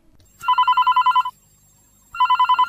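A telephone rings for a call-in to a farm advice programme, sounding two bursts of fast, trilling electronic pulses separated by a short pause. The second burst is cut off at the end.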